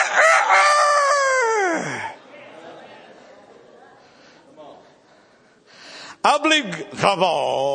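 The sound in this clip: A voice imitates a rooster crowing with a long, loud, strained crow whose pitch falls. After a quieter stretch of murmuring, a few more sharp, crowing-like vocal bursts follow.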